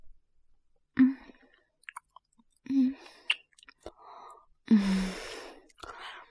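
Someone tasting food makes a few short wet mouth smacks and chewing sounds, mixed with breathy sighs and separated by brief pauses.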